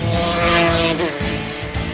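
A fast racing motorcycle at the 1988 TT races near Governor's Bridge, heard as a loud, high-revving engine whine rich in harmonics, with a brief shift in pitch midway as it passes.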